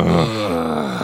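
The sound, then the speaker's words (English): A person lets out one deliberate, drawn-out voiced groan on request. It is loud and low, dips in pitch early, then holds steady to the end. “And I'd like to hear your best groan.”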